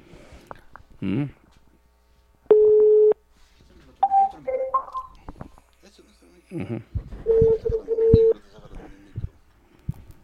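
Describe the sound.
Telephone tones sound while a number in Pasco is called: a steady electronic tone, then broken tones later, between stretches of talk and faint line noise.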